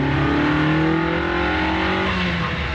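A car engine revs under acceleration while driving, the car pulling to the left with an off-centre steering wheel and a smooth gearbox. It gives a loud, continuous engine drone whose pitch climbs gently.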